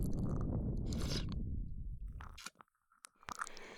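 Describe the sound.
Wet licking and slurping mouth sounds run densely for about two seconds, then break into a few sharp, quieter smacks and clicks.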